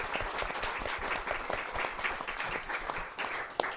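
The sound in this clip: Audience applause welcomes a panel speaker at a talk event: many hands clapping in a steady, dense patter that continues fairly faintly for the whole stretch.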